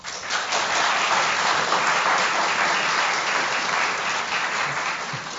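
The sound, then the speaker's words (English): Audience applause cast as a vote on which of several science claims, one about HIV-associated dementia, is the fiction. Dense, steady clapping from many hands holds evenly loud for the whole stretch, easing only slightly at the end. “Applaud for the one that you think is the fiction. How many people in the audience think the HIV-associated dementia one is the fiction?”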